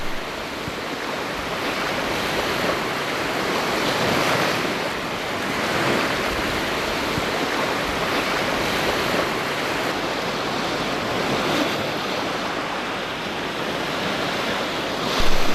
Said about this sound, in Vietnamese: Biển nước huyền bí giữa vùng đồng cỏ mênh mông. Một đàn ngỗng cao cổ bơi lội trong sóng nước.